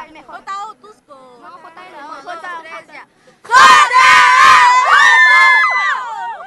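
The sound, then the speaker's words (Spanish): Crowd at a school event in Otuzco, honouring parents and the school, shouts a loud unison cheer with high excited voices, breaking in after a single voice speaks for a few seconds. “Una vez, una más, una barrita para todos los padres de familia y la institución en Otuzco.”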